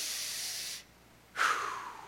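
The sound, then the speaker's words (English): A deliberate deep breath demonstrated during a church sermon: a long, strong airy hiss, a short silence, then another forceful breath that slowly fades, with no talking. “Breathe. Now, I know you breathe every day, but I hope once a day, somewhere throughout your day, you stop and you do something like this.”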